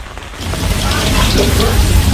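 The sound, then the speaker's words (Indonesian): Steady rain falling on a morning when the downpour has not yet let up, a dense continuous hiss with a low rumble beneath it that swells slightly after the first moment and then stays even. “karena hujan juga belum reda”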